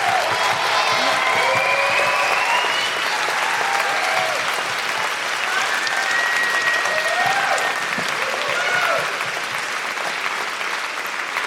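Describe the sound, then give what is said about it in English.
Loud, sustained applause and cheering from an audience at a live stage event, a dense wash of clapping that holds steady for the whole stretch without a break. “round of applause for the incredible Rick Henley Streets and Jamie Klingler, and also Pippa Woodrow taking on the law, and the law didn't win”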